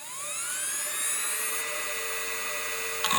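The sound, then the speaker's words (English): High whine of a spinning mechanical hard drive in a 2005-era PowerBook laptop, rising in pitch as it spins up, then holding a steady, faint tone; a brief click sounds at the end. “Yeah, like my 2005 era PowerBook would sound kind of like this.”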